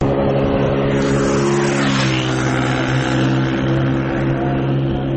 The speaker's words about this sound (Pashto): محمد لالا د خپل زړه موټر سایکل په واسطه په خورا تیزی روان دی